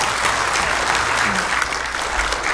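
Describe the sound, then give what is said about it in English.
Applause from an audience welcoming a preacher: dense, steady hand clapping that fills the whole stretch at an even, fairly loud level without a break. “Let's give him a big hand as he comes tonight and preaches to us.”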